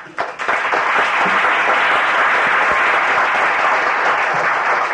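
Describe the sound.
Loud applause fills a legislative chamber to welcome visitors in the gallery, opening with a few scattered claps before swelling into steady, sustained clapping from many hands.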